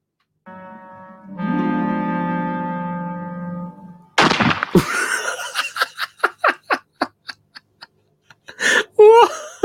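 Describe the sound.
A single sharp gunshot from a freshly loaded gun bursts out after a long, steady droning tone, followed by a quick string of short, choppy bursts.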